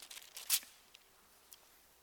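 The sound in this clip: A faint, quick papery rustle as Bible pages are flipped over, a short swish with one brighter flutter, then a single soft tick of paper a moment later.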